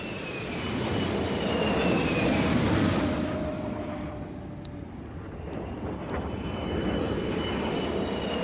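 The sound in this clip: Aircraft fly overhead, a broad steady roar with a faint whining engine tone above it. It swells to its loudest in the first few seconds, eases slightly, then holds at a sustained level without any voices.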